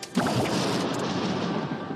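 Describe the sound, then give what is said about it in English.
Thunder breaks with a sudden crack and then rolls on as a dense, sustained rumble that stays loud for the rest of the moment. “We got lightning.”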